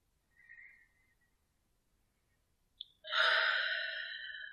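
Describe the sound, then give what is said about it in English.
A deep breath: a soft, short airy breath sound, then after a pause a longer, louder rush of breath with a slightly whistly hiss that fades gradually. “We'll take a deep breath now.”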